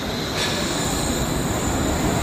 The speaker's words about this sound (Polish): Kolej podwieszana.